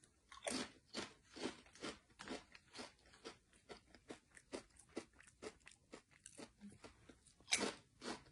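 Sweet Creole onion kettle-style potato chips from a dollar store being crunched: many crisp, quiet bites and chewing crunches in an irregular rhythm, with no talking.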